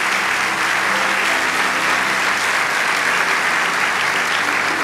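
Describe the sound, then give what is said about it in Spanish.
Audience applause in a church during a sermon, a dense, steady wash of clapping that holds at an even level for about five seconds, with no voices standing out. “Vamos, dale ese aplauso.”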